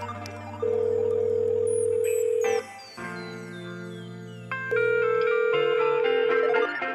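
Telephone dial tone as a call is placed: a steady electronic tone that breaks off partway, followed by shifting tones, then a steady tone again with higher electronic tones above it. No voices.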